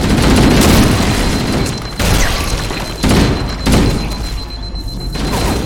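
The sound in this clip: Grenade explosions in the video game Halo land as a few heavy, booming blasts, each breaking through a loud, continuous rumble of noise.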